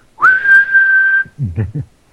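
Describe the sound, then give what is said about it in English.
A whistle is blown by someone lying on the ground: one sustained blast of about a second at a steady high pitch, followed by a few brief low sounds. “Well, I can blow my whistle on the ground just as easily as standing up”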